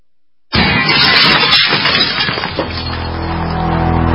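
Glass smashing and splintering during a home burglary break-in: a sudden loud crash bursts in after a short silence, then breaking and crunching noise continues, loud and dense, to the end.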